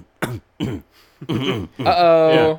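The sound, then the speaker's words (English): A voice imitates a small, phlegmy cough: a few short, throaty bursts, then a longer voiced, gurgling sound. “it's like that mini like phlegm cough”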